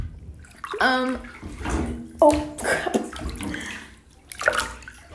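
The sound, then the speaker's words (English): Water sloshing in a bathtub as someone bathing shifts around, making a few irregular splashes and swishes that rise and fall in loudness between quieter moments. “Bath sounds.”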